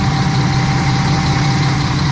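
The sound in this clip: The engine of a city bus on the Tiradentes–Parque Dom Pedro line idles with a constant low, vibrating drone, heard from inside the bus on a rainy morning, loud and unbroken with no talk.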